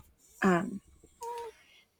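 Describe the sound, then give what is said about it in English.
A dog whines to be let outside, giving two short whines separated by a brief pause. The first is louder, lower and fuller; the second is a thinner, higher tone. “So this dog is like. He's whining because no one's come to bring him out. Take him outside.”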